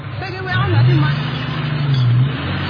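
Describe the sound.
A car engine accelerates hard, its low drone climbing in pitch and then holding steady at high revs, with voices mixed in over it.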